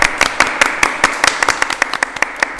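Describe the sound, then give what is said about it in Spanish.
Applause from three teachers honoring a group of children: many sharp, fairly regular claps in a steady patter, with no voices over them. “queremos homenajearlos con este aplauso para ustedes”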